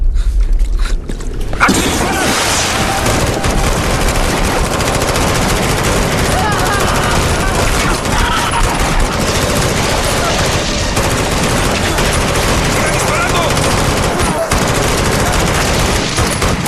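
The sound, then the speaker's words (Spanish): Sustained, loud gunfire, with rapid repeated shots aimed at a creature that will not die. The shooting runs almost without a break through the whole stretch as dense, overlapping bursts. “¿Qué es esa maldita cosa? ¡Sigue viva! ¡Ya le disparé 100 veces! ¡No muere!”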